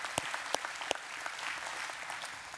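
An audience applauds to welcome the Manning campus with soft, continuous clapping. A few sharper individual claps stand out from the steady patter.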